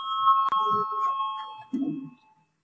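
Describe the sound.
A parliament voting bell rings as a sustained electronic tone at a steady pitch for over a second, with a few brief, low murmurs of voices around it.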